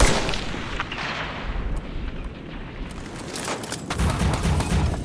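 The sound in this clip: Sniper gunfire from a tower in a video game: a dense, loud roar of battle noise broken by several sharp, cracking shots.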